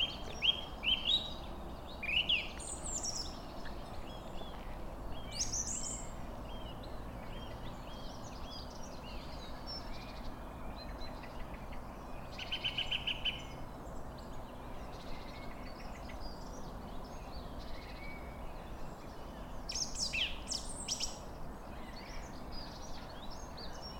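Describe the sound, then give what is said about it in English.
Birdsong at dawn beside a canal in the Brecon Beacons in spring: scattered high chirps and short song phrases come and go over a steady soft background hiss, with no talking. “Lovely thing about this time of year, not all the birds are in full song yet. And of course we haven't had any of the migrant birds arriving.”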